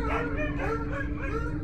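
Dogs kept behind a fence whimper and howl in a continuous stream of wavering, high-pitched whines that rise and fall over a low steady hum.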